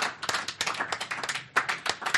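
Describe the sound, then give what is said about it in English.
An audience applauding, many sharp, distinct hand claps in an uneven patter, moderately loud and without voices. “let's have an applause for this really good audience and the questions they've answered.”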